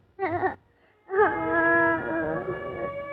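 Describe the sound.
A little girl crying: a short wavering wail, a pause, then a longer, high, trembling cry that drags on with a wobbling pitch until the end.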